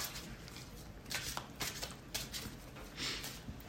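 Playing cards are shuffled by hand, giving soft papery riffles in several quick bursts. The sound stays quiet and even throughout, with no talking.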